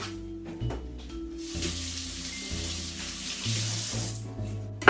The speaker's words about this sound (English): And celery can kind of just hold a lot of dirt in the in-between layers, so I'm gonna give that a quick rinse.